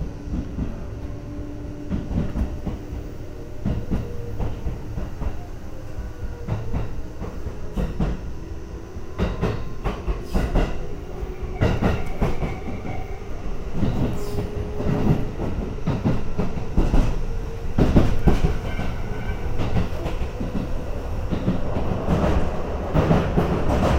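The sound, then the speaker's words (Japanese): A Tobu line train at its final stop, heard as steady rolling rumble with many sharp clicks and squeaks from the rails. No voices are heard. “This is the last stop of this train. Thank you for using the Tobu line.”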